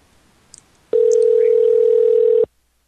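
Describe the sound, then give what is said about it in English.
Ringback tone of an outgoing phone call: a single steady, moderately loud tone lasting about a second and a half that stops abruptly, preceded by faint background noise. “He probably turned his phone off, but we'll give him another shot here.”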